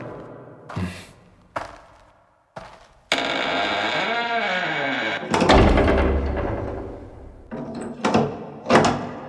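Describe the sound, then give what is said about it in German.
A wooden door is locked from outside: a few separate knocks and thuds, then a long, rough sustained noise, followed by more heavy clunks near the end. “Die Holztür wurde von außen verschlossen und Leon und Mirko standen im Dunkeln.”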